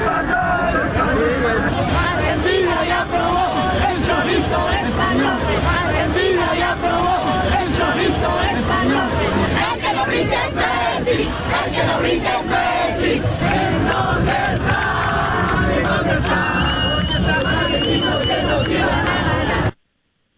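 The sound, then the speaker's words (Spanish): Spanish football fans in a dense crowd sing and chant after a victory, with songs aimed at the Argentine team. A loud, continuous mass of voices with sustained sung tones runs throughout and cuts off abruptly at the end. “y por supuesto cánticos ya tropicalizados sobre todo contra el equipo argentino. Esto fue parte de lo que se escuchó.”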